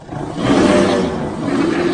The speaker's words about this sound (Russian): Оглашает горную долину рев странного существа. Помесь йети с гиббоном, резво поскакавшего в сторону противников.